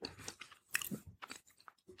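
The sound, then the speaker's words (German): Crunchy chewing of salted almonds, a close, fairly quiet series of crisp bites and grinding crunches in irregular bursts, with no talking. “ich nehme jetzt mal ein paar Salzmandeln”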